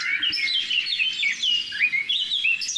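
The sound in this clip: Birds chirping around an old oak tree, a steady stream of bright, high twittering and warbling calls that overlap throughout, with a faint low rustle beneath and no voices.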